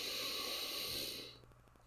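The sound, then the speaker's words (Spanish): A long, deep inhalation during a guided breathing exercise, a steady airy hiss that tapers off near the end. “Y exhalamos por la boca. Inhalando profundamente.”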